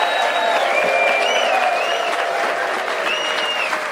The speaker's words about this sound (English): You can hear the very hardiest festival goers are with us already for the early start.